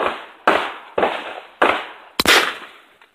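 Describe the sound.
Sharp gunshots from two pistols and a shotgun ring out at a shooting range. Four loud cracks come at roughly even intervals, each with a ringing decay, and the last pair are in quick succession, followed by one faint shot.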